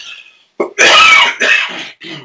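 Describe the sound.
Coughing fit from a man, a few loud, harsh, raspy coughs and throat-clearing bursts in quick succession, heard alone with no talk.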